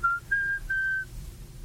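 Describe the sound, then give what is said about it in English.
A person whistles three clear, high notes, one short and two longer held tones, alone over faint background hiss. “I like to whistle.”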